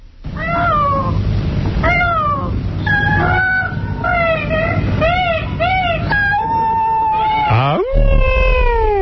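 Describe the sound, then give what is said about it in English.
Peacock mating calls ring out as a loud series of many high, nasal, meow-like wails rich in overtones, repeated in quick succession and closing with a longer, stronger cry. “That was peacock mating call.”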